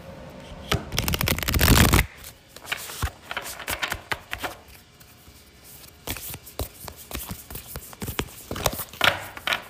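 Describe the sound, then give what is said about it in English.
Oracle cards being handled and shuffled from a deck: a dense burst of riffling and snapping at the start, then many scattered flicks, slides and taps of the cards in an irregular rhythm. “Alright, then I'm just going to pick an Oracle card for funsies.”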